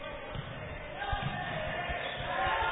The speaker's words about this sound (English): Dribbles middle court. Dribbles right corner.